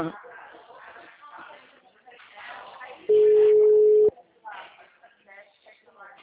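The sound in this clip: A telephone tone sounds after a dropped call: a single loud, steady, mid-pitched beep lasting about a second. People talk before and after it.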